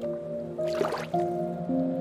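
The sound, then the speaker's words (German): Water sloshes and splashes briefly as someone slides into warm water, a short wet burst over a steady, soft musical drone. “lässt du dich hineingleiten ins feuchte Nass. Das Wasser ist angenehm warm.”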